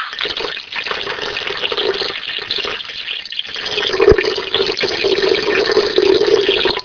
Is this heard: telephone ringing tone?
no